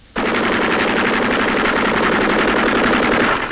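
A sustained burst of rapid automatic gunfire from the enemy, a sound effect in a radio drama, bursts in loud and steady and runs without pause for about three seconds before cutting off.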